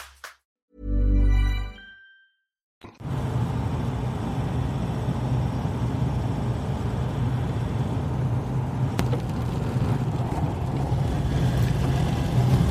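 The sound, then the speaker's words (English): A car drives at night in pouring rain over a mountain range in New Zealand. After a short, separate burst of sound and a moment of silence, a loud, steady roar of engine, road and rain sets in and holds. “It's nearly midnight, and I am driving over the Kai Mai Ranges into the Bay of Plenty in New Zealand. It's pouring rain.”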